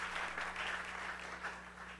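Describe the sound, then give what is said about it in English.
A church audience applauds during a Sunday morning service, a steady wash of many hands clapping at moderate level throughout, with a low electrical hum beneath. “And I want you to give Kenny Hallam a great big hand this morning.”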